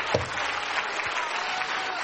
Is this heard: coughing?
no